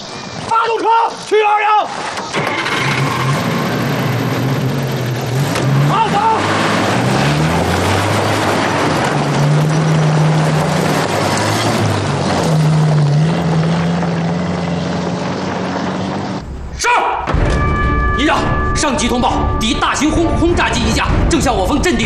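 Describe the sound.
A military vehicle's engine starts and drives off, sent to an anti-aircraft battalion's position as an enemy bomber approaches. A loud, continuous engine roar with shifting low droning tones breaks off abruptly near the end, and a different steady sound follows.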